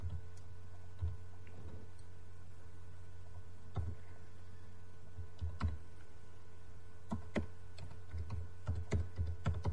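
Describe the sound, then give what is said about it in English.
A website link being typed on a computer keyboard: scattered soft key clicks, some single taps and some short quicker bursts, faint over a steady low hum, with no talk. “Can you type the link of your website in the chat on the radio station?”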